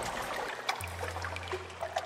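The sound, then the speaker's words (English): Water of Biscayne Bay lapping at the edges of an abandoned speedboat racing stadium on Virginia Key, Miami: faint, gentle splashes and trickles over a steady low hum. “That's the sound of the water of Biscayne Bay, lapping up at the edges of the abandoned speedboat racing venue on Virginia Key, known as the Miami Marine Stadium.”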